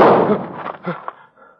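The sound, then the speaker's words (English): A single pistol shot fired in a duel: one loud, sharp crack at the very start that decays into a rumbling tail lasting about a second before fading out. “Are you hit? No, I'm all right. Bullet went through my hat.”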